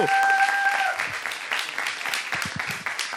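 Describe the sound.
Audience applause for a band at a live radio show: dense, steady clapping from many hands, easing slightly toward the end.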